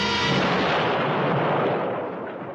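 A bomb explosion sounds as a dense, loud, sustained rumbling roar that holds steady and then gradually fades toward the end, with no voices.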